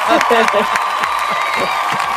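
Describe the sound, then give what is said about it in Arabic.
An applause sound effect, played by a host, gives steady clapping mixed with crowd cheering and whoops, with talking over it. “لحظة أشغل الإفكت صفقة.”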